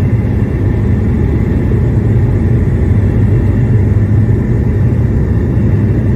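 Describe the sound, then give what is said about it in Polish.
Steady, loud roar of a Q400 turboprop airliner accelerating down the runway for takeoff: a dense low rumble with a broad hiss above it, holding constant throughout with no voices. “I jedziemy. Fajne przyspieszenie. Lubię ten dźwięk startującego Q400.”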